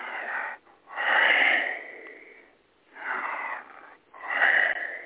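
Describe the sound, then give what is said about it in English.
Deliberate breathing, with breath slowly drawn in and let out again. A few loud, airy rushes of air rise and fade in turn with short pauses between them, and no talking is heard. “If they just draw in their breath and then let it out”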